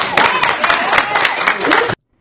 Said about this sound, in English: Notice the crowd so riled up because they are brainwashed to respond this way.